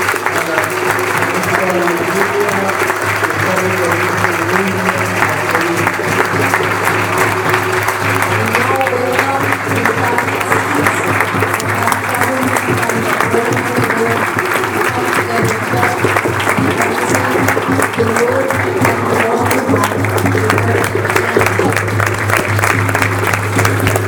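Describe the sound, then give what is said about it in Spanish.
Sustained audience applause at the opening ceremony of a people's health movement assembly: a dense, steady patter of many hands clapping, loud and even throughout, without a clear break. “Damos un gran aplauso.”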